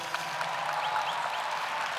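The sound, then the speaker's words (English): Steady audience applause at a ceremony honoring staff. Even, dense clapping holds at a moderate level throughout with no break. “please give them a round of applause for what they do.”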